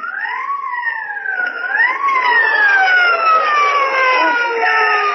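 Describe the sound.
A police car siren wails loudly and alone, its pitch sweeping up and down in long, smooth cycles that grow steadier over the five seconds.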